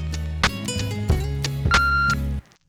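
An answering machine beep before a message: a single steady mid-high electronic tone of under half a second rings out over a thumping musical beat, followed by a brief near-silence.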